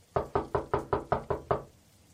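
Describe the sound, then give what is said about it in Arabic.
Eight firm, evenly spaced knocks on a door at night in the rain, each a hollow thud, then silence. “من اللي بيدق الباب بهذا الوقت وبين المطر هذا؟”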